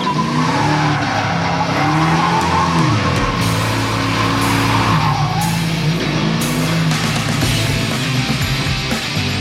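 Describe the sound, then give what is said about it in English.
Tires squeal and skid as a Camaro tuned for extra horsepower is driven hard. A wavering high screech rides over a steady engine roar, loud and sustained through the whole clip. “The guys were struggling trying to get enough horsepower out of this Camaro without having to cut a hole in the hood to stick a supercharger through it.”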